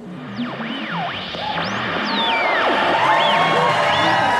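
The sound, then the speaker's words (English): Canned crowd cheering sound effect: whooping voices sliding up and down in pitch over a wash of crowd noise that grows louder toward the end. “Okay, I think I have the fake audience noises all queued up here. Take it away, sir.”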